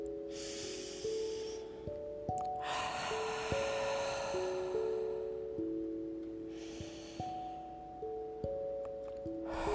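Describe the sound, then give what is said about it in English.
Slow, deep breaths taken during a calming guided breathing exercise, a few long airy hisses rising and fading, heard over soft, sustained musical tones with gentle note changes and no talking. “we're going to begin by taking three nice breaths, which will just begin to calm our mind and to calm our hearts. Shall we Take 3 long breaths.”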